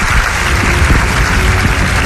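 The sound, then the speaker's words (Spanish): Loud, dense applause rises from an audience welcoming a guest, a clinical psychologist from Venezuela, onto a Spanish show. A thick, steady wash of clapping holds at a constant level throughout. “a quien pido que le des un fortísimo aplauso.”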